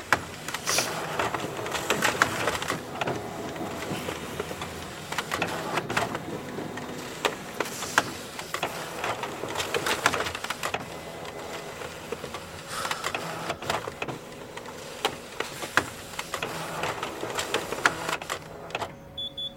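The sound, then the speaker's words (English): A slow Xerox copier in a gym making copies, a continuous mechanical whirring and rattling with repeated clicks and clacks throughout. “so I'm gonna have to make some copies. Whatever. Do it. Okay. It's a slow copier because it's a Xerox machine in a gym.”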